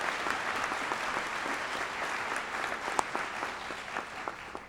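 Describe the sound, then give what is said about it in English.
Applause welcoming a special group of students at a ceremony as they enter higher learning. Many hands clap in a continuous, steady patter at moderate level, with a few sharper claps standing out. “Let's all give this special group of students a warm hand of welcome.”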